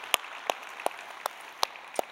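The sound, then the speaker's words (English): Church audience clapping to welcome guests at a morning service, six sharp, evenly spaced claps over a soft hiss of background noise. “Let's put our hands together and welcome all of our guests that are with us this morning.”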